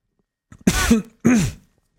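Someone chokes on gingerbread and gives two sharp, throaty coughs, the second following closely after the first, in otherwise quiet surroundings.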